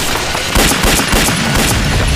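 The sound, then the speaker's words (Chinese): Gunshots fired during a wartime skirmish with an enemy patrol: a dense, loud barrage of overlapping cracks and bangs in rapid succession, with no voices. “我开枪把他们吸引过来了。”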